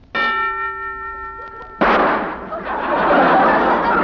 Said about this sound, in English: That's the first time I ever heard a preview of a gun going off.